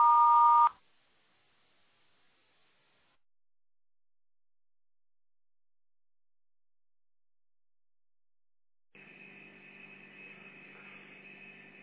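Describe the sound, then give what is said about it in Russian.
An answering machine beep, a single loud steady tone lasting under a second, followed by a long stretch of near-silence and then a steady buzzing hum. “Вас приветствует автоответчик. Оставьте сообщение после звукового сигнала.”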